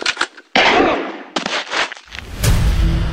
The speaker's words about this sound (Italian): Aiuto! Mi sta sparando!